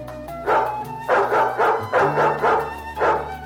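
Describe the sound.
Dogs bark in a hunting scene, a run of several loud, sharp barks in quick succession over a low, steady background drone.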